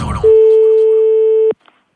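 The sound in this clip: A telephone busy tone heard after a call is hung up: one steady, loud, mid-pitched beep held for just over a second, ending in a soft click, then silence.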